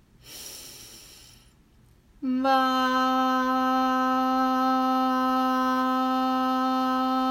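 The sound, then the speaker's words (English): A person breathes in with a soft, airy inhale, followed by a loud, steady sustained tone that holds to the end. “Once again, breathe in.”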